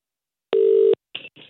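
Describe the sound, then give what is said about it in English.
A telephone call being dialed: one steady electronic tone lasting under half a second, followed by two shorter, fainter tone bursts. “I'm going to call them anyway and ask them if they can do it for me now.”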